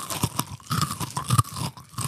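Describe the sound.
Someone crunches and chews a packaged snack in loud, irregular bites. Sharp crunches alternate with softer grinding chews and no talking.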